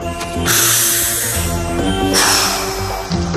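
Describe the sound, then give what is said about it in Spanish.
A deep breath is drawn in and then let out, making two long airy hisses over soft background music. “Instrucciones para encajar, caer bien a todo el mundo y estar siempre contento. Paso 1. Respira.”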